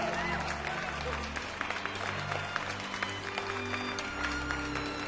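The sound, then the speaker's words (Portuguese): Hosts clap their hands in applause, a dense patter of sharp claps running through the whole clip under a steady murmur of voices. “Uma salva de palmas digital para esse Moebius de Carvalho Guimarães Rosa. Eu vou bater palma aqui pessoalmente. Também tô batendo.”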